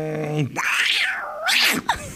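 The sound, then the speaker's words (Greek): A person imitates a cat meowing with two drawn-out, wavering meows that rise and fall in pitch, the second shorter, loud and alone. “Γάτο θα σου κάνω.”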